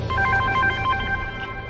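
Telephone ringing, a rapid pulsing electronic trill that runs through most of the short clip over a low steady hum.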